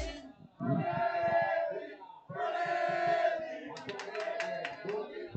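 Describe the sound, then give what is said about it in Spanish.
Atlético de Madrid supporters of the Peña Atlética in Torrejón de Ardoz chant loudly while following a match, two long sung phrases from the crowd giving way to rhythmic clapping and shouts. “Ojo la afición, escuchen la afición que habla aquí la Peña Atlética.”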